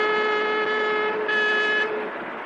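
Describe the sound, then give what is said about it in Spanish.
A vehicle horn blares from a driver on the road, honking at a truck that weaves across the lanes. One long, loud, steady honk holds for the whole stretch, with a brief shift in tone partway through. “en el otro vehículo el conductor aprieta el claxon”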